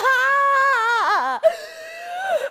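A woman crying in high, wailing voiced sobs whose pitch wavers and dips, breaking off briefly before a steadier, lower drawn-out wail.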